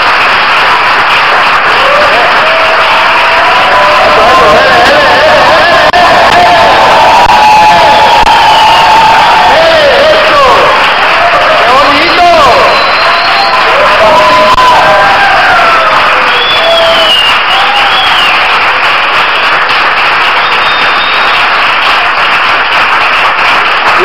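Crowd cheering and applauding at a worship gathering, a loud, continuous wash of shouts, whoops and clapping that holds steady for the whole stretch without a break.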